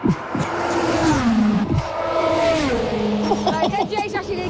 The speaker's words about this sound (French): Alors attention, on va entendre le bruit d'une voiture qui passe à 300 km/h.